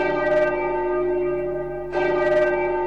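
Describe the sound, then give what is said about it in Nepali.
A bell sounding the noon time signal: two clear strikes, each ringing on with sustained, layered tones that fade slowly before the next strike. “यति बेला मध्याह्नको 12 बजेको छ। बज्यो।”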